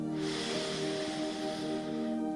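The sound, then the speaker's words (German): A long, steady intake of breath through the nose, a soft airy hiss lasting about two seconds over sustained tonal background music. “Lass uns nochmal atmen. Wir atmen durch die Nase ein”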